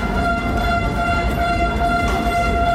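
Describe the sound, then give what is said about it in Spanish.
Residents of Usansolo protesting with whistles for a metro stop in the town centre, at the entrance to a parliament chamber: a loud, continuous blend of steady shrill tones over a broad rumbling din, with no clear pauses. “lo que escuchan es la protesta de los vecinos de Usánsolo para poder tener el metro en el centro de la localidad”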